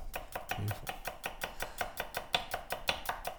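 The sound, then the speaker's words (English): A knife chops onions on a board in a fast, even rhythm of many crisp strokes, with no talking. “I could listen to you cut onions all day long.”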